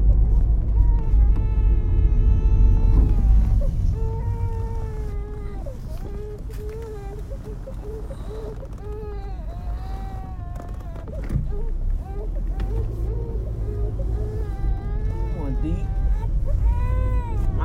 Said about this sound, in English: Uh-oh, the baby crying.